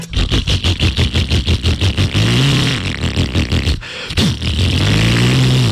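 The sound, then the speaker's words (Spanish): Motorcycle engine running loud and rough, a rapid chugging pulse that then revs with rising pitch, cuts briefly, and revs up again. “Si la moto suya suena así.”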